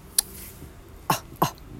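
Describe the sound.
Three short, sharp dog barks sound out separately: one early burst, then two more close together near the end, each brief and fairly loud over a quiet background.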